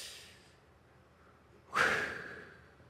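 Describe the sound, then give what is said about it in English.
A single sharp exhaled breath, voiced as the pronunciation of the divine name Yahweh, bursts in after a soft opening hiss, carrying a faint whistling tone before fading out over about a second. “in English we say Yahweh, but it's the pronunciation of a breath,”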